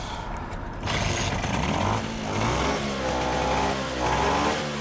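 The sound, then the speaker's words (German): Vespa scooter engine running after a repair, idling with a buzzy rattle and responding to a few throttle blips that swell the engine note before it settles back each time. “Die Vespa läuft wieder und hängt gut am Gas.”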